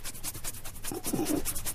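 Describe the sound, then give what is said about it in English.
Bristly scratching of a hand rubbing a chin, made of many quick, evenly spaced strokes in a steady back-and-forth rhythm. The rasping stays close and fairly loud throughout. “would you excuse me while I just rub my chin for a second?”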